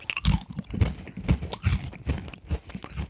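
Crunchy spelt crackers being bitten and chewed, a steady series of crisp, crackling crunches at a fairly regular rhythm, close and moderately loud with no talking.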